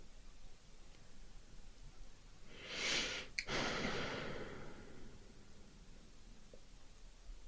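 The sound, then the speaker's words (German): A single deep breath is drawn and released softly over about two seconds. It is an airy rush with a brief break in the middle, rising out of faint background hiss. No one speaks. “Gerade als ich in dieses Nachspüren reingegangen bin, da ist nochmal so ein tiefer Atemzug gekommen.”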